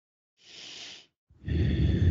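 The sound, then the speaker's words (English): A deep breath taken during a guided chakra relaxation exercise: a soft, airy breath sound, a brief pause, then a louder, fuller breath with a rougher low body, with no talking. “You could even close your eyes if you're able and take a nice deep breath.”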